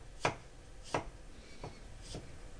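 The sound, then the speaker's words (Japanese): Knife chopping peeled ginger into thin strips on a board: four separate crisp cutting strokes spaced unevenly, the first two louder and the last two softer, with no talk. “薄くスライスしたニンニク、生姜を端から細切りにしていきます。”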